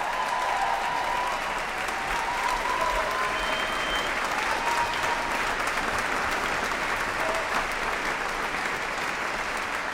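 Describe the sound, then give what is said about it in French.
Wild, sustained audience applause at Victoria Hall in Geneva after a performance of Luciano Berio's Coro at the Festival Archipel, a thick, unbroken roar of clapping that holds steady throughout. “Nous quittons le public en délire, public du Victoria Hall qui a accueilli ce coro de Luciano Berio”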